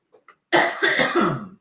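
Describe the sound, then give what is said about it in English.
A short coughing fit with choking. Two faint throat clicks lead into a loud burst of a few harsh coughs run closely together, heard alone without talk. “Oh, I'm choking.”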